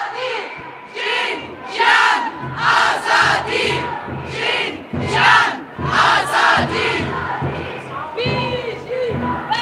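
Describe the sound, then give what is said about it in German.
Slogans chanted by a large crowd at a feminist demonstration: loud, rhythmic bursts of many voices shouting in unison in a steady, repeating cadence, with brief dips between phrases throughout. “Ja, ihr hört, verschiedenste Parolen werden da skandiert an der heutigen feministischen Demonstration.”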